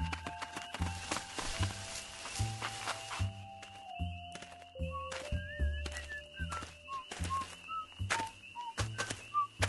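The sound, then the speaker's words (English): A man walks along a railway track in a run of dull, thudding footsteps at a steady pace. Sustained tonal notes sound above the steps. “a man is walking the track towards us”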